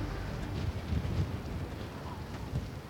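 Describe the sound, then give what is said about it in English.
Strong, cold wind at high altitude on a volcano's slope below the crater, a continuous loud roar of buffeting noise with small gusty bumps and no voices. “There's no air, but the wind's so strong. And it's pretty cold.”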